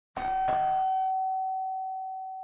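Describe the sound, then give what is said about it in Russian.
A doorbell rings: two quick electronic chimes merge into one steady, mid-pitched tone. The tone rings on alone and slowly fades, with no voices. “Звонок в дверь.”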